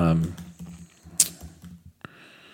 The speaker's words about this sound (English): let me actually, I'm going to type it in here.